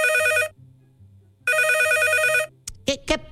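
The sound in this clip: Telephone ringing as a husband calls his wife: two bright, trilling ring bursts separated by a short pause, over a faint low background, followed by a few short, sharp sounds.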